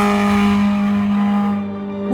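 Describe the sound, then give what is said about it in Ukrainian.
A sports car overtakes at a town entrance with a loud, steady engine whine that holds one pitch, dips slightly, then climbs sharply at the very end. “Біля в'їзду в місто його обігнав спортивний автомобіль.”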